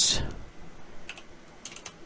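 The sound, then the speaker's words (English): Typing on a computer keyboard: a handful of light, quick clicks scattered across about two seconds, with a slightly stronger cluster near the end, faint against a quiet background. “Bad at typing.”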